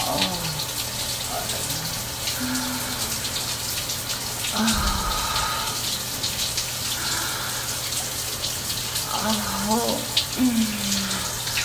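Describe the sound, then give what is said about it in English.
Water running steadily while soap is rinsed off, a continuous bright hiss of spray, with a few brief, faint vocal sounds over it. “let me rinse all this soap off”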